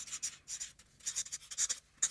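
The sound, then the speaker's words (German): Pen scratching out writing on cards, a series of short, dry, scratchy strokes in quick bursts with brief pauses between them, fairly faint and with no talk. “schreiben wir das auch mal wirklich auf. Also einmal vielleicht auch auf drei Karten”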